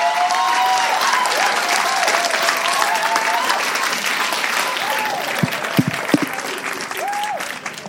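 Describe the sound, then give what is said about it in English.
Church audience applauding to show appreciation, a loud, dense, continuous roar of clapping that lasts throughout, with a few whistles rising above it. “So I wonder if we can put our hands together, show our appreciation.”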